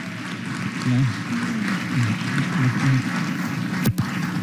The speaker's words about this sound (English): So let's give the Kujuak youth a nice welcome.